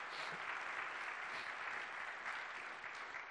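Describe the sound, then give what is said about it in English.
An audience at a church service claps in praise, a dense, even wash of applause that stays steady and fairly loud throughout, with no other sound standing out. “Give the Lord a hand of praise.”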